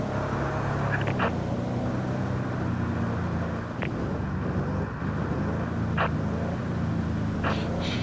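A car drives off in a radio drama, its engine a steady low droning hum at even loudness, broken by a few sharp clicks and rattles. No voices.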